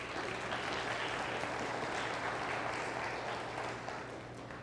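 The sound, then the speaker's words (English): An audience claps during a sermon, a continuous, fairly faint patter of many hands held at a steady level for the whole stretch. “we can clap about it, but if we're not believing it and we're not doing it, clapping it doesn't matter.”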